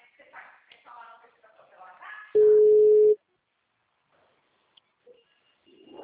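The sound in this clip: A telephone ringback tone sounds on an outgoing call: one steady, mid-pitched tone lasting under a second. It follows a stretch of people talking and is followed by near quiet.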